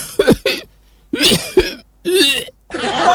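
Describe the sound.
A voice imitates an old man's coughing with a series of harsh, raspy coughs that come in a few separate bursts, each short and throaty with brief pauses between them.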